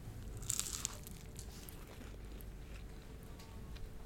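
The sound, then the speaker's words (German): A crisp crunch as teeth bite into crispy pastry with a red filling, made to a 17th-century recipe: one short, faint burst near the start, followed by soft, quiet rustling. “Jetzt beiße ich mal rein.”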